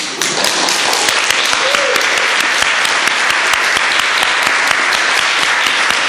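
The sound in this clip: An academic senate audience applauding in appreciation, a dense, loud and sustained wash of clapping with individual sharp hand claps standing out throughout, and a faint voice briefly audible early on.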